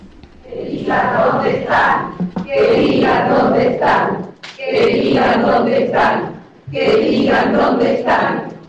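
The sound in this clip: Crowd chanting at a court hearing before the verdict is read, a loud rhythmic chant of many voices in repeated phrases separated by brief pauses, a heavy thump under it.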